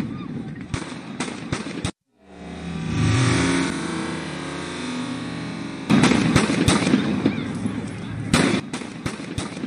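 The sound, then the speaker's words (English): Gunshots fired at police during a riot crack as sharp, sudden reports in scattered bursts, broken by a stretch of steady, engine-like rumble, after which many louder impulsive bangs return. “this guy is actually shooting a gun at cops. Like, check this out. Right there.”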